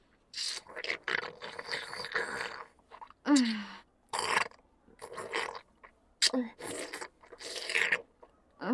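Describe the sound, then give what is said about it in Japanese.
Wet licking sounds, many slurping, smacking bursts in an uneven rhythm, close and fairly loud, with short pauses between them. “でも、美味しいから頑張ってペロペロしてあげる。”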